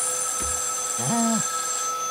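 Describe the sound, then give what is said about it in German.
A telephone ringing once: a single short electronic tone with a bright, buzzy timbre over a faint steady hum, with a tiny blip just before it. “Dein Telefon”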